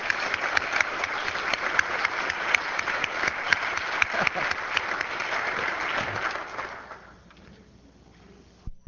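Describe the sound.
Steady applause welcoming a guest on the floor of the South Dakota Legislature: dense, sustained clapping for about seven seconds that then fades away.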